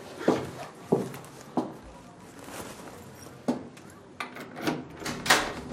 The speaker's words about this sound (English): Manana enters her apartment and closes the door behind her.